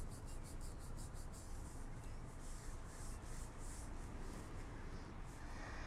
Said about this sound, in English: Andy, who fidgets with his hands as he nervously rubs his knees.